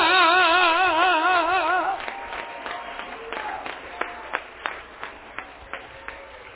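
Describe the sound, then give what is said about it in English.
An audience claps hands during a church service. A sustained, wavering sung voice comes first, then it gives way to sharp hand claps falling into a steady, rhythmic beat that grows more distinct toward the end. “Come on, clap your hands and”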